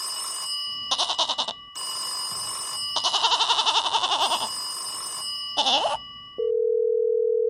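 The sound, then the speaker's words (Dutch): Telephone ringing tones while dialling in to a caller, heard alone as a few repeated loud buzzy bursts, then a steady low continuous dial-type tone at the end. “Zullen we gewoon langzaam in gaan bellen?”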